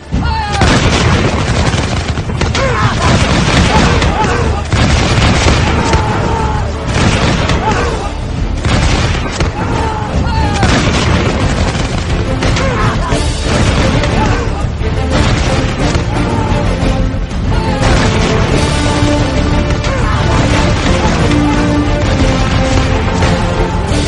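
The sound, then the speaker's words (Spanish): Musket volleys from troops opening fire on an enemy square in a seventeenth-century Flanders battle, with heavy booms mixed in. The gunfire is loud, dense and unbroken for the whole stretch, with no pauses. “hasta que volvieron a avanzar en paralelo contra el cuadro enemigo para volver a abrir fuego por una segunda vez.”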